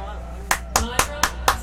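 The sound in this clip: Five sharp hand claps ring out evenly spaced about a quarter second apart, each crisp and loud, following a voice.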